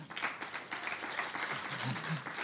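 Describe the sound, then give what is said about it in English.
Faint audience applause greets a young assistant called up to help tell a story, a soft, steady patter of clapping that lasts the whole stretch. “Let's give Bree a hand.”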